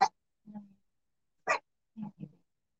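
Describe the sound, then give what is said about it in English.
A dog barks in a few short, separate bursts, some sharp and bright, others lower and softer, with silent gaps between them and no talk over them. “And that is my dog. Of course, she's got a bark right now.”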